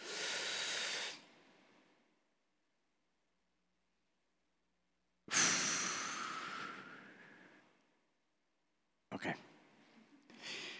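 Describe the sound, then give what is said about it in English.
Deep breaths in and out during a guided breathing exercise: loud, airy hissing in three separate bursts with silent pauses between, the middle breath long and slowly fading away. “on the count of three, we'll take a deep breath in, and then I'll count”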